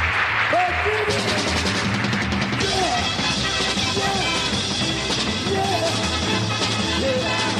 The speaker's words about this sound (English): My bass player, Mr. Jimmy Grant, how about a wonderful round of applause?